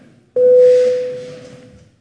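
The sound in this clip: A parliament voting bell sounds as one steady, mid-pitched electronic tone. It holds for about one and a half seconds and slowly fades.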